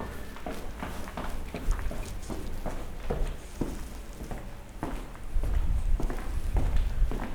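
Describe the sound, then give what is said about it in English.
Footsteps walk down a flight of stairs in a steady rhythm, many distinct taps in sequence, with a louder low rumble coming in near the end. “So I do the same walk every day, going down the stairs.”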